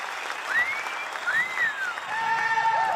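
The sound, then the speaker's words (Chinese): An audience applauds after a song performance, a continuous wash of clapping that stays fairly soft and even throughout. “谢谢，感谢大家掌声”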